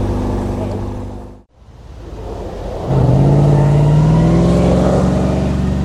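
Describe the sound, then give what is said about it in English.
A highly modified V8-powered MG race car roars down a race track: steady loud engine noise dips briefly, then swells into a droning tone that climbs slowly in pitch. “So here's another MG coming down the track. Highly modified this one.”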